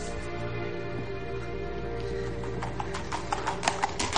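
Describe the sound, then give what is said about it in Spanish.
Hooves of a horse carrying two riders clip-clop as it moves away in a historical drama, faint under a low rumbling bed at first, then a quickening run of distinct hoofbeats in the final second and a half. “Ella y Kathleen sobre un caballo se alejan”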